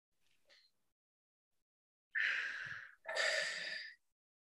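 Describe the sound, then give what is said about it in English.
A deep breath taken during an emotional freedom tapping exercise comes as two soft, airy rushes in quick succession after a near-silent start. Each rush is even in level, and no words are spoken. “And just take a deep breath.”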